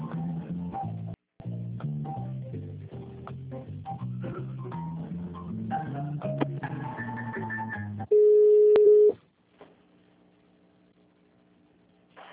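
Telephone tone during a call transfer: on-hold music gives way to a single loud, steady beep lasting about a second, followed by a faint low tone.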